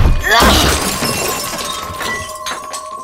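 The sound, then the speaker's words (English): A crystal ball is smashed, with a sharp crash of breaking glass near the start followed by a spray of tinkling shards that slowly dies away. “You've been chained to this crystal ball for far too long. Break free your mind. Smash the ball.”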